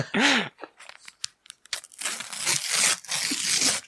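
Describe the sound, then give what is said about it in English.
Sticker packets are torn open with crinkly ripping and crunching of the wrappers, in short bursts and then a longer, denser tearing stretch. “Time for stickers, please. Open stickers now. And open, engage.”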